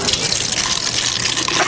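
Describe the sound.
Beer pours into glasses in a steady, fairly loud gush and splash of liquid that lasts under two seconds, with no talk.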